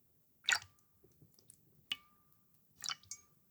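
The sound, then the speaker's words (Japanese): Slightly hot water makes a few faint, wet squishing splashes and drips, each a short burst separated by quiet pauses, with no talking. “ええ、正解です。水の音です。より正確に言うと、少し熱めのお湯ですね。”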